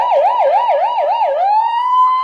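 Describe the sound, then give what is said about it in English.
A voice imitates a police siren with about five quick wavering wails, then settles into one steady held tone. It is loud and heard alone. “if you want to see this guy's amazing, amazing police siren”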